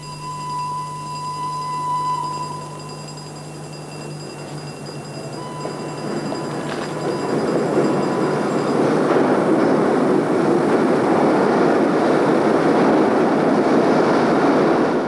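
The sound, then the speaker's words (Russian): A locomotive pulls into the railway station at Chiusi on a hot August afternoon: a faint steady tonal hum at first, then a broad rumbling roar that builds from about halfway and holds loud to the end. “Гвида на вокзале в Кьюзи с букетом цветов. Под своды входит локомотив.”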